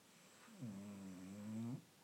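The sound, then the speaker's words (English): A single faint, drawn-out snore, a low buzzing tone held for just over a second before cutting off, alone against a quiet background. “Is that an old man snoring?”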